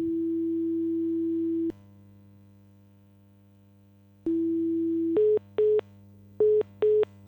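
Telephone ringback tone while placing a call in Spain: a steady mid-pitched tone sounds for about a second and a half, falls silent for a few seconds, then returns and gives way to several short, slightly higher beeps over a low hum.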